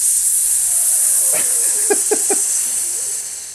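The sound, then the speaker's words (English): A drink poured hard makes a continuous, bright, hissing rush that stays steady and fairly loud from start to finish. “Okay, going in for the pour.”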